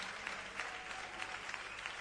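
Faint applause from an audience at a presentation honouring a long-serving football club captain: a soft, steady round of clapping with small crisp peaks.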